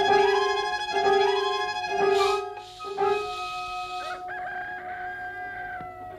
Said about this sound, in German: Ich fürchte, sie sind krank. Bei den Hühnern fängt es an.